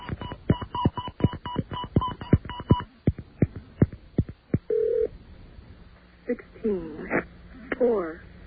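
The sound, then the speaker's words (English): Touch-tone beeps from a phone dial a number and then an authorization code, a rapid run of many short, sharp tones, after which a recorded voice starts speaking. “now we dial the number we're calling. And then the authorization code.”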